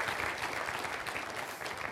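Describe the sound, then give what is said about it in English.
Applause from a church audience welcoming new members into membership at a morning service: dense, steady clapping that lasts the whole stretch with no voices over it. “Let's give them a hand, shall we?”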